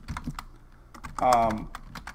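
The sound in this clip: Fingers type a location into a weather forecast page on a computer keyboard, giving a run of quick, light key clicks, with a voice briefly heard midway.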